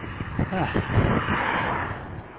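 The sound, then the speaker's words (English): A car going by, a broad rushing roar that swells over the first second and then eases off slowly, staying fairly steady to the end. “When a car goes by, my attention goes on that vehicle for whatever reason.”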